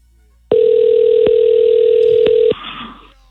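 A telephone call rings out on the line: one steady tone holds for about two seconds, broken by two faint clicks, then gives way to quieter line noise.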